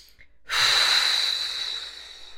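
A single slow exhalation follows relaxing the arms, legs, abdominal and chest muscles after tensing them in a relaxation exercise. It is a long, soft rush of breathy air that starts suddenly and then fades gradually.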